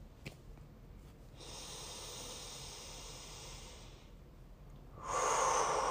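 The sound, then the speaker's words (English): A deep breath: a long, soft, airy inhale lasting a few seconds, then after a short pause a louder, breathy exhale at the end, all quiet and without talk. “I'm going to take a deep breath and celebrate.”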